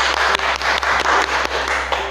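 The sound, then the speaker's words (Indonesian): Audience applause welcoming a guest onto an Indonesian talk show: dense, continuous clapping at a steady level throughout, with a low hum underneath and no voices. “Mari kita beri aplaus yang meriah.”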